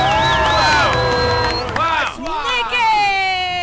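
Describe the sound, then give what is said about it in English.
A studio audience cheers and whoops for a guest being welcomed, loud and sustained throughout. “Everyone, let's give it up for Nick, because baby, we're having a good time.”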